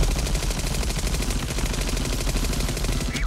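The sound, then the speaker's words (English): An Uzi submachine gun fires in one continuous rapid burst, its loud, evenly spaced shots running without pause for the whole few seconds. “Really, they're just guns for the ordinary sportsman. And then like a nice warm Uzi.”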